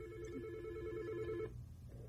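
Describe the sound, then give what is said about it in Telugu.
A telephone rings with an incoming call: a quiet, steady electronic ring tone that holds for about a second and a half, stops, then faintly begins again. “Okay, మనకి ఇంకో call వచ్చారు కాబట్టి తీసేసుకుందాం.”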